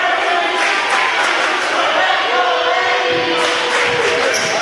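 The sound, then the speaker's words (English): Crowd cheering at a basketball game between Sylacauga and Indian Springs, a loud, continuous roar of shouting fans that stays dense throughout. “Aggie faithful getting into this ball game. Quite a crowd made the trip.”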